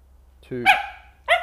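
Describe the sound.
A dog barks twice: a first bark that breaks upward from a low yelp into a sharp, bright burst, then a second clipped bark after a short pause, with a low steady hum underneath.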